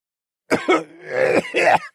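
A disgusted cough from a person recoiling at a stench of death and decay, made of a few rough, throaty bursts with a strained, gagging quality, heard alone.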